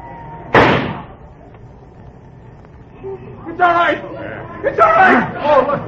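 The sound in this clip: A single sharp gunshot rings out in a radio drama, a loud sudden bang that quickly fades, followed after a pause by several voices talking.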